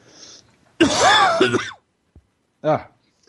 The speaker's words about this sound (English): sorry, I'm coughing a bit.